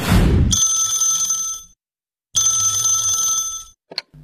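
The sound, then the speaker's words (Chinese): A telephone bell rings in two long, bright, shrill bursts separated by a short silence, then a brief click follows. The call comes in the morning at a home in a residential compound. “老何就接到了一个让他特别开心的电话”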